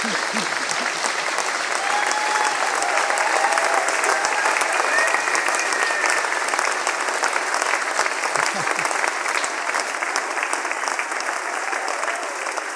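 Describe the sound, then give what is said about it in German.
Loud, dense applause from an audience, with rapid clapping that stays steady and unbroken from start to finish. “Das ist so ein Applaus.”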